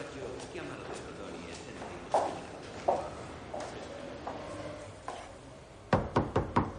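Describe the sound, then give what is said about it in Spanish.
Knocking by hand on a door at the top of a staircase, a quick burst of about four sharp raps near the end, following a few softer thuds over a low, steady background. “termina de subir las escaleras y llama golpeando con su mano.”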